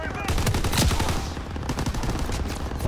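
Video game gunfire: rapid bursts of automatic weapon fire crackle and rattle almost without pause, loud and dense, with a few heavier reports among them.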